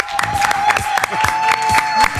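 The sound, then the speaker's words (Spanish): A small studio audience on a music program applauds to welcome a guest musician. A handful of people clap in a fairly regular rhythm, loud and close together throughout. “Vamos a pedir, Marto, aplaudimos, dale.”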